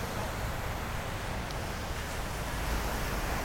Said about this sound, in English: You can hear the ocean in the background.